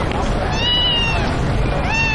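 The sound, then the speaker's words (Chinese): A newly arrived black cat meows twice: one drawn-out meow, a pause, then a second that rises in pitch, both over a continuous, busy background noise. “你看他们家新来了只猫，好特别啊，它是黑色的。”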